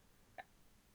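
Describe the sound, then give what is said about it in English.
A computer mouse gives a single soft, sharp click as a link is clicked, alone against a quiet background. “So I'm clicking the link to see”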